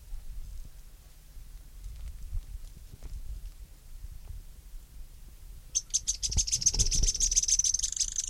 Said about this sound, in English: Synallaxis stictothorax. One. Sharp notes.